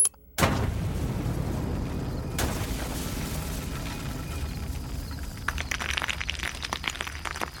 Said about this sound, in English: Key areas on the complex simultaneously explode inside and outside the building.